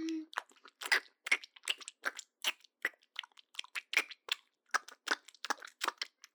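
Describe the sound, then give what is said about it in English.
Close, wet chewing of pizza with many crisp, crunchy bites in an uneven rhythm, heard alone with no talk. “I can taste your pizza. It's so delicious.”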